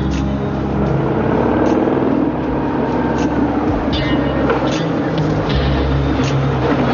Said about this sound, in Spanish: Una moto transita por una carretera.